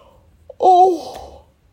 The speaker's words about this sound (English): oh my God, why am I yawning so much?